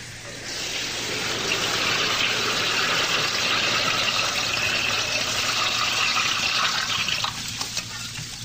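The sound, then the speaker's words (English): Hot water fills a bathtub with a steady, full rushing hiss that holds evenly for several seconds over a low, constant hum. “I'm going to boil some water and fill the tub.”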